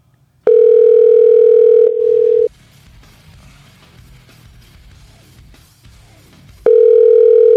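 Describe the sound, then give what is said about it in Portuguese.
Ringback tone of an outgoing telephone call, a steady mid-pitched electronic tone that sounds twice for about two seconds each time, with quiet line hiss in the gap between. “Se chamar 6 vezes e não atender, a gente desliga”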